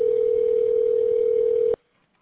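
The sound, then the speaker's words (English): A telephone tone on a customer-service call line sounds as one steady, unbroken pitch, clear and fairly loud, holding for under two seconds before cutting off abruptly into near silence. “Dialing.”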